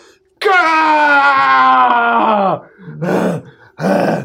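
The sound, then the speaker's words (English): A voice imitates an anime power-up yell: a long, strained, loud cry that slides lower in pitch at the end, followed by two shorter grunting shouts, with no other sounds. “I slash down after 20 minutes of powering up and yelling, ah! Ah!”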